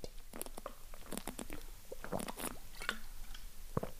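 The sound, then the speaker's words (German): Sipping and swallowing a drink: a run of several soft, wet gulps and mouth noises at an uneven rhythm, with no talking. “Aber ich trinke mal kurz einen Schluck bevor wir an die nächsten zehn Fragen gehen.”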